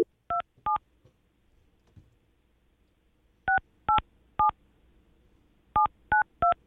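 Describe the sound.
Telephone keypad tones dialing a number: eight short, clean beeps grouped two, then three, then three, each crisp and steady against near silence.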